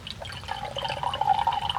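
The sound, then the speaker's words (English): Water runs from a campground tap in a provincial park into a container, a steady gurgling, splashing stream at moderate level that continues throughout without talk. “Okay, so let's go fill this water. Let's go fill this up.”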